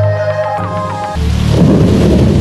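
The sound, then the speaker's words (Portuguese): A thunderstorm on Brazil's only oceanic island: a loud, low, rumbling rush of rain and thunder swells in after a stretch of sustained musical tones and stays strong to the end. “Um temporal muda a paisagem e alimenta os córregos da única ilha oceânica do Brasil com fontes naturais de água doce.”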